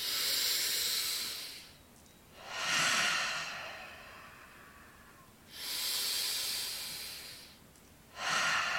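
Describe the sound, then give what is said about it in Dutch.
Deep breathing in and out, slow and long, with loud hissy breaths of a second or two separated by quieter pauses in an even, unhurried rhythm. “En door jouw hart open te stellen en een paar keer diep in en uit te ademen,”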